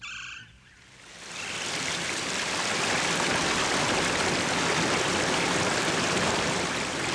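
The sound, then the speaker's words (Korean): A mountain valley stream flows in summer with a loud, steady rush and gurgle of water. After a brief quieter opening it swells in and carries on unbroken, with no voices. “잠시 계곡물 흐르는 소리 함께 들어보시지요.”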